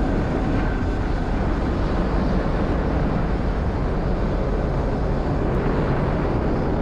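A SpaceX Falcon 9 first stage's engines roar during the Crew-5 Dragon launch, a dense, unbroken rumble that stays loud and even throughout.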